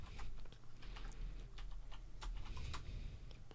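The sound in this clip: Typing a search on a computer keyboard: many quick, irregular key clicks run throughout, over a steady low hum, with no talking.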